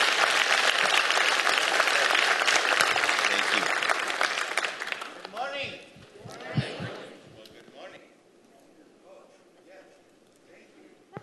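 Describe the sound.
Applause from a church audience welcoming a guest speaker: dense, loud clapping for about five seconds, then thinning and fading away, with a voice speaking as it dies down and a few scattered claps or knocks near the end.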